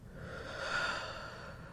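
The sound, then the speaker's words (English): A slow, deep exhaled breath during a guided breathing exercise: a soft, airy whoosh that swells toward the middle and then fades, heard alone without talk. “Inhale. And exhale.”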